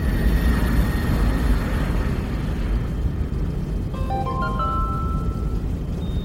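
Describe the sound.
Airliner taking off: a dense, steady roar of engines with a faint high whine riding over it, loud and unbroken throughout.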